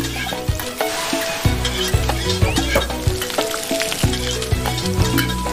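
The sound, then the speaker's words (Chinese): Garlic fries in hot oil while being stirred, giving a dense, constant sizzle and crackle with soft scraping throughout and no talk. “起锅要放点万金油，好，放蒜、 爆香，”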